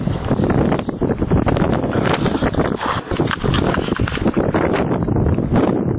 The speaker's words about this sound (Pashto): سیمه ټوله باد او دوړو پر سر اخیستې ده.